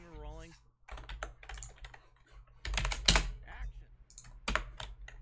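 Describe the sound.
Rapid typing on a computer keyboard while writing a message in a game chat, heard as bursts of irregular, crisp key clicks that are sometimes loud. A voice speaks briefly at the start.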